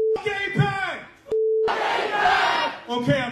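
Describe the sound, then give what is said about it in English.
Rally crowd cheering and shouting in loud bursts, cut twice by a steady, flat electronic tone. “Make some noise for Daria Lisa! Make some noise for Brad Lander! Make some noise for Claire Valdez!”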